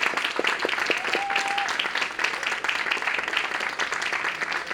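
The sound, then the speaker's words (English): Audience applause welcomes a guest moderator at an Apple Store event: a dense, steady wash of many hands clapping at once, sustained at an even, loud level for the whole span without a break. “Ladies and gentlemen, put your hands together for our guest moderator this evening”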